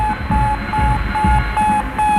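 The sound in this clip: The Sputnik 1 satellite's radio signal: a regular train of short, steady-pitched beeps repeating at an even rhythm over a bed of hiss and low rumble.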